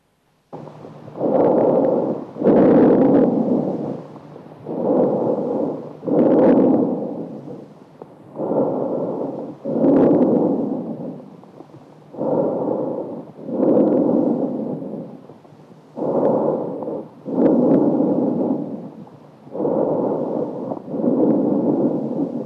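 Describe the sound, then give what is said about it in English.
Tracheobronchial breath sounds from an adult lung sounds recording: loud, harsh, hollow rushing breaths in about ten evenly paced in-and-out cycles, each swelling and stopping with brief pauses between, with no voices. “We begin with examples of adult lung sounds. Tracheobronchial breath sounds.”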